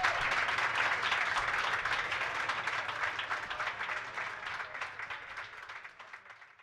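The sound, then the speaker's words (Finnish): An audience at a live music event applauds the previous performer with dense, continuous clapping that gradually fades and thins toward the end. “annetaanpa vielä kerran oikein raikuvat aplodit tälle meidän edelliselle oikein mahtavalle esiintyjälle”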